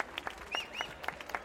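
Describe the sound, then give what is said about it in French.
Faint audience applause thanking workers at a public fountain inauguration: scattered, light hand claps with brief higher chirps between them. “Je vous propose de les applaudir tous ensemble.”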